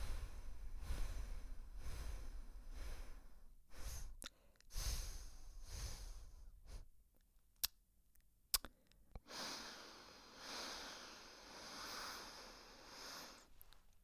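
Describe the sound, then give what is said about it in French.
Slow alternate nostril breathing in an exercise for lowering pressure, with faint, airy inhales and exhales through one nostril at a time, unhurried, ending in a longer, soft, drawn-out breath. “Inspiration à gauche. Expiration à droite.”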